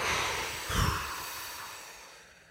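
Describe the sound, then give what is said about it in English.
A long whooshing exhale during a breathing exercise: a soft, steady breathy hiss that fades gradually over about two and a half seconds, faint and with no other sound. “And then you're going to exhale with a whooshing sound, like”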